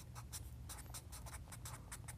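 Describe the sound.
People writing on paper during a church class: faint, quick scratchy strokes come in a brisk, irregular run of many short scrapes, with no voices.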